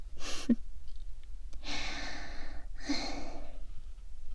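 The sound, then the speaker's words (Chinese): Heavy, gulping breaths, three long audible breaths separated by short pauses, breathy and moderately loud with no voices. “呼吸吧，呼吸吧。这样大口大口的喘气，还真有意思呢。”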